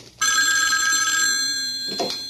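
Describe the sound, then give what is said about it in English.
A payphone rings with a loud, steady electronic bell tone that lasts nearly two seconds before it breaks off. No one speaks. “Who could be calling on a payphone?”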